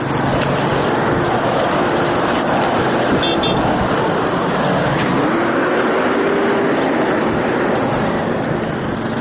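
Traffic noise from ordinary cars alongside security-force tanks and police Ranger trucks on the city streets of Lashkar Gah: a continuous roar of engines and road noise at a steady loudness. One engine tone drifts upward partway through.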